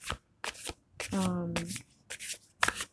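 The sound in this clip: Cards being shuffled for a reading in several quick, crisp riffling bursts, with a brief voiced sound in the middle and short pauses between bursts.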